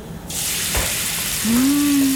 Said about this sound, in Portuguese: Agora vamos colocar óleo na frigideira. Pouco óleo, amor. Nada de encher.